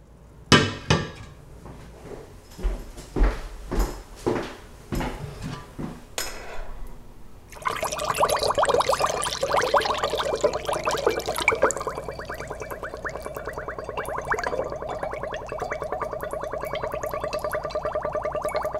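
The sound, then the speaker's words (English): Homemade plum wine drains through a funnel: a few clinks and knocks first, then a dense, steady gurgling flow that goes on to the end. “This is wine draining through a funnel.”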